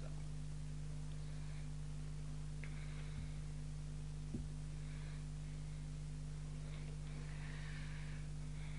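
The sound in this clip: An electric fan runs at an adjusted speed setting, producing a steady, quiet hum with a low tonal drone that stays unchanged, broken only by a couple of faint clicks.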